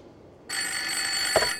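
A telephone rings, a bright, steady electronic tone that begins abruptly after a brief quiet moment and carries on unbroken to the end, with no voices.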